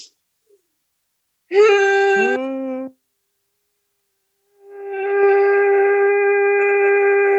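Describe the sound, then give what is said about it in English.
A voice hums and buzzes through the exhale to imitate a bee: a short hum that steps down in pitch, a pause, then a long, steady, loud drone held to the end. “on the entire length of the exhale, you make a humming, buzzing sound like a bee. So it sounds like this.”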